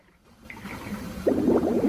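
Underwater bubbles swirling in the ocean: a soft gurgle builds from near silence into a dense, churning burst of bubbling in the final half-second.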